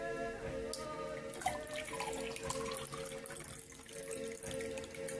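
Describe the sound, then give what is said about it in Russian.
Water pours into a glass holding a pebble, a continuous running, splashing flow that lasts about five seconds, with a steady tonal hum underneath. “Камешек сюда. Наливаете воду.”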